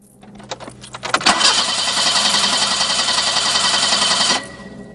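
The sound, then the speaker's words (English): Engine cranking from a black BMW as the key is turned in the ignition in a car park. A few soft clicks come first, then a loud, steady rattling churn runs for about three seconds and cuts off abruptly. “The woman arrives at a black BMW, unlocks the door and gets into the driver's seat. The woman, who has crimped shoulder-length blonde hair, slides her key into the ignition and tries to start the car.”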